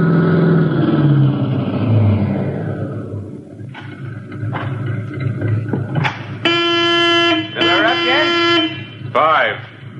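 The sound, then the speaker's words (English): A car engine runs at a gas station in a police crime drama, a low steady rumble beneath men talking back and forth throughout. “You better cut your motor. Forget it. I said you'd better.”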